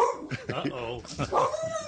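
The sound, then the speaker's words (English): A dog named in the surrounding talk barks a few times in short bursts, heard under and between steady talking from people nearby. “Winston's barking at MJ. Winston's gone after MJ.”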